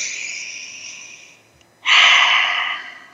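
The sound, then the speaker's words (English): Deep breathing during a guided relaxation exercise: a long, airy breath fades out, a short pause follows, then a louder, fuller breath rushes in and slowly tapers. “So let's breathe that in.”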